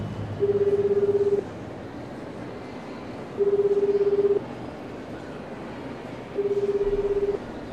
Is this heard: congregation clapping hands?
no